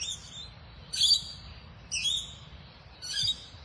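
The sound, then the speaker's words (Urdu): Bulbul and dove calls on a dawn walk, heard as a few short, high chirping bursts repeating roughly once a second over a faint, steady low background. “اچھا، یہ بلبل کی آواز، فاختہ کی آواز، پرندوں کی آواز تو اپنی جگہ”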